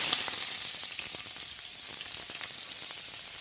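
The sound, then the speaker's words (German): Food sizzles and fries in hot vegetable oil in a pot while being stirred: a loud, steady hiss dotted with scattered crackles and light scraping clicks throughout. “Der Topf war ziemlich heiß. Jetzt muss ich eben aufpassen, dass hier nichts anbrennt. Und deswegen muss ich sofort ziemlich viel rühren.”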